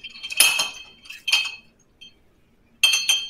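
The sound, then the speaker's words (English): Metal clinks against glass while a whiskey cocktail made with bottled-in-bond Old Forester is stirred, in three short bursts of bright tinkling separated by brief silences. “and give it a little stir. Oh, nice. And give that a little stir.”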